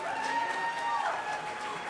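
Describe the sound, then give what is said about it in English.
A crowd cheering and clapping as new Fulton County board members walk in before their swearing-in, a steady wash of applause and voices heard beneath a person talking. “As the members walked in, the crowd cheered.”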